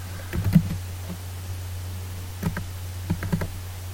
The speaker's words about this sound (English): It would help if I could type. There we go.